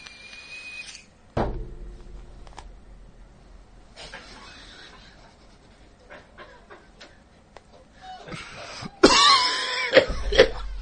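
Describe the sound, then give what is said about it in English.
Coughing during a comedy joke-telling session: a sharp cough early on, then a long quiet stretch of faint rustling, then a cluster of louder, rough bursts near the end. “Okay, don't show me coughing. Please edit that part out.”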